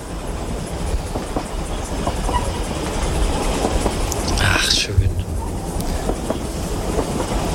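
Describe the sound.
A train runs on rails, producing a steady, loud rumble with clickety-clack wheel noise throughout. A brief, higher hiss or squeal rises midway.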